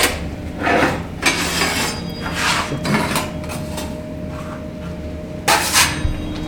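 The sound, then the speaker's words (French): The metal door of an enamelling kiln, heated to about 850 degrees, is shut after a plate is warmed. A few scraping clanks and thuds sound over a steady low hum. “Voilà, la plaque est chaude, on referme le four.”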